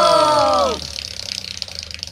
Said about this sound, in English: Let's spin that wheel!